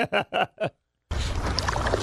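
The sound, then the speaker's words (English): Paddling sounds from a boat moving through a cave tunnel with stalagmites. A short voice comes first, then a brief silence, then a steady rush of water noise. “I'm just not going to stop paddling and keep an eye out.”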